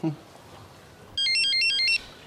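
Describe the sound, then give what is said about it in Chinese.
An incoming call sets off a mobile phone ringtone: a short, bright, high-pitched electronic melody of quick stepping notes, lasting under a second and clearly louder than the quiet background. “我儿媳妇也打电话来”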